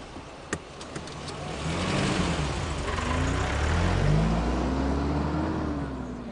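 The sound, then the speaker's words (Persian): A car is put into gear and pulls away, a few sharp clicks first, then the engine builds into a rising rev as it accelerates, its pitch climbing steadily before easing off at the end. “دیگه اینجا وایستادن نداره. بزن توی دنده.”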